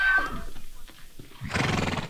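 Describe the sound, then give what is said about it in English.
Wild horses rounded up during a drought whinny at a corral. A high, clear neigh opens, then comes a stretch of snorting and shuffling hoof clip-clops, and the sound ends in a loud, rough burst. “The wild horses rounded up today are faring better than that, but not by much.”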